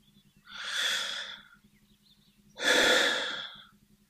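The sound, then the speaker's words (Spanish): Two slow, deep breaths during a guided meditation, each a long airy whoosh lasting about a second, separated by a quiet pause. The second breath is louder and fuller than the first. “Y ahora quiero invitarte un segundo a respirar.”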